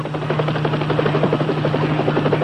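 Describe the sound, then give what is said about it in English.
Helicopter rotor chopping loudly and steadily as the aircraft flies in toward a lot, a dense rhythmic thudding with a continuous engine whine and no voices. “what's that? It's a helicopter. Hey, he's coming right this way.”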